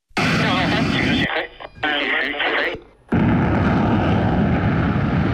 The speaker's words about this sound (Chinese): 独自驾驶3代战机升空，飞赴莫申靶场，展开空对地炸弹石头训练。